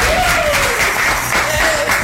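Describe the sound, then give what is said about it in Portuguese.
Steady, loud audience applause at a live Sunday-night show, dense continuous clapping with a faint sustained tone beneath. “Uma galera fortíssima para o aplauso de todos vocês.”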